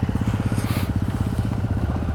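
Motorcycle riding on loose gravel during braking and throttle practice, with a damaged rear ABS sensor: a steady, pulsing low engine rumble under a gritty crunching hiss, with no talk.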